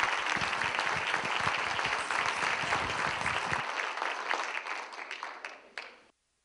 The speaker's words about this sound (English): So a big welcoming hand to Devra Davis.